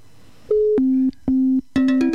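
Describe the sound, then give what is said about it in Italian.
Telephone line tones while redialing a dropped call: a short, higher beep, then three steady lower beeps in an even on-off rhythm. The last beep is joined by extra layered tones. The tones are loud and there is no talking. “Vediamo di rifare la chiamata. E beh, le linee saranno surriscaldate.”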